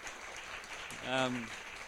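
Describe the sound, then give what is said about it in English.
Faint audience applause for the actors, a soft, steady patter of clapping, with a voice speaking briefly over it partway through. “And what about a round of applause for all the actors?”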